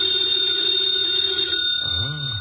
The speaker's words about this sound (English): Should never ignore a phone call. Who knows? Might be something important.